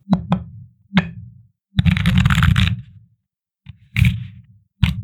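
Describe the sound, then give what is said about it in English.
Tarot cards are shuffled and handled: a few sharp taps and knocks, then a dense riffling burst lasting about a second, followed by more short taps, with no talk. “But first, let's pull our tarot card.”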